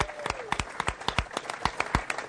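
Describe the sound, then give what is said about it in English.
Scattered audience applause at a Chicago Blackhawks tribute event: many separate, sharp claps in an uneven, loose rhythm, sounding thin, as if only part of the crowd is joining in. “Go ahead, you can applaud, you bet.”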